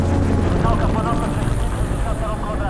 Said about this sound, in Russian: В темноте над тайгой летит вертолет.